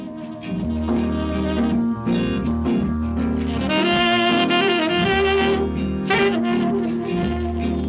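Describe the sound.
Ethio-jazz instrumental music blending Western jazz instruments and rhythms with Ethiopian scales and melodies, with layered melodic lines over a steady low accompaniment at a fairly constant, full loudness.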